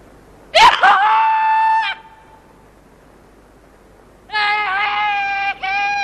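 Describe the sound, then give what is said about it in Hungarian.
A person screams at the top of their lungs: two long, loud, high-pitched screams separated by a pause, the second holding steady and breaking off briefly near its end. “Néha úgy szeretnék teli torokból üvölteni. Itt a legjobb alkalom. Egyedül vagyunk. Rajta üvölts. Ordíts, ahogy csak kedvet tartja.”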